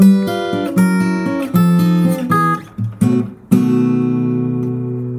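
A short blues guitar lick in the style of Robert Johnson, one chord shape moved along the fretboard. A few plucked notes and chord stabs sound, then a final chord rings out and slowly decays, with no voices.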